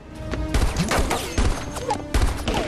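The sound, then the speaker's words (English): Pistol gunshots in a firefight: many sharp, overlapping cracks in quick succession, with a few heavier bursts standing out amid dense, loud continuous shooting. “He draws his pistol and shoots, but takes a bullet to the chest.”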